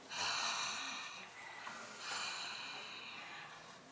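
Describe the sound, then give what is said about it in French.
Breathy exhalations like warming one's hands, made to demonstrate how to pronounce an Arabic letter: two long, airy hisses, the first louder and the second softer and drawn out, with no voiced sound. “Ça réchauffe les mains, ça réchauffe les mains. Et puis là, on souffle bien en faisant...”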